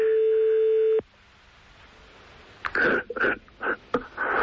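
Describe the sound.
Telephone ringing tone heard while calling someone back: one steady, even tone lasting about a second, then silence, followed by a few short, noisy bursts.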